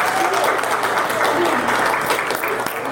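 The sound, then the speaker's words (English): An audience at a witches' fair gathering claps warmly and continuously, a dense patter of many hands at an even, moderately loud level, with some voices mixed into the applause. “Let's give the organizers and the vendors a round of applause for coming out”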